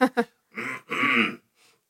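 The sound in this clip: Throat clearing: a few harsh, rasping, gravelly bursts, two short voiced catches followed by two longer noisy scrapes, fairly loud and heard alone.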